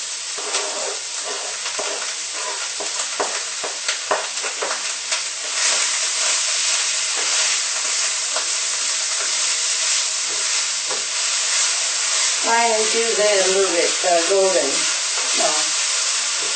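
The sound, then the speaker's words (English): Food, apparently mushroom, frying in hot oil gives a steady, dense sizzle and hiss that runs loud and unbroken throughout, with a voice briefly sounding over it near the end. “Oil is ready. I'm gonna put this in to fry.”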